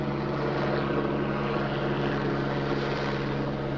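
Steady drone of a police aircraft circling overhead during exercises, a loud continuous engine hum with low tonal lines that holds without a break, and no voices.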